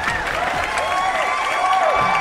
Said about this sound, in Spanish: Aplausos, por favor.